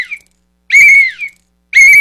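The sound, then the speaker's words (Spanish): Shrill tonal blasts from a small toy whistle being blown: a brief faint toot, then two loud steady blasts, the second cut off at the end. “Aquí tengo un chiflito como lo prometí ayer.”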